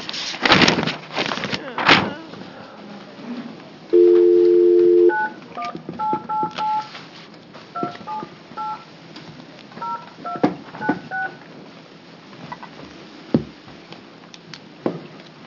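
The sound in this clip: Telephone keypad tones sound as someone dials in a participant to a teleconference during a hearing: many short electronic beeps in quick clusters, following a brief steady low tone, with rustling and faint voices around them.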